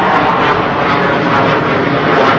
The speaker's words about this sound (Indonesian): tak bisa pesawatnya diperintahkan supaya berhenti hari ini.